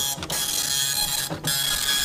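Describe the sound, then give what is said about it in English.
A wire dot-matrix printer prints every character combination, graphic symbols included, in both directions. A loud, continuous buzzing rasp is broken by two brief pauses as the print head reverses. “I can turn on the printer, and it's now going to print every one of the wire combinations that's in the printer. Okay, I'm holding it down. Okay, now let go. Here they come.”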